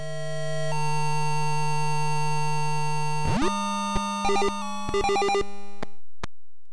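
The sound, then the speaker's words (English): Beeps from an early PC's built-in speaker, with no sound card, sound electronic and buzzy. A long steady tone jumps sharply upward in pitch, then gives way to clusters of short, rapid beeps and a final isolated blip. “You see, Lynx was released at a time when most PCs had no built-in sound card, when they had no native capability to play digitized sound samples, nor much of anything else, when they sounded like this.”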